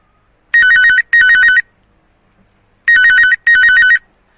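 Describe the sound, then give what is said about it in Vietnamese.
A telephone on a work desk rings loudly with a trilling electronic ringtone, sounding four short bursts in two pairs with near silence between the pairs. “ngay khi Đặng Nguyên đếm được đã lần thứ 396, hắn đưa mắt nhìn về điện thoại đang nằm trên bàn làm việc, thì chuông điện thoại chợt vang lên”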